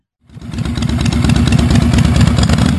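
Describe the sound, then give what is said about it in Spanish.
A motorcycle engine bursts in from silence and settles into a loud, throbbing low rumble with small surges, steady to the end with no voices. “yo ahí cruzaba con la moto, solo”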